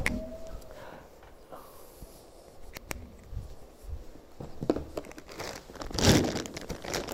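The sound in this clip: Rummaging through a bag of pens: crinkly rustling and scattered sharp clicks and taps, with a louder clatter of crinkles near the end and no talk.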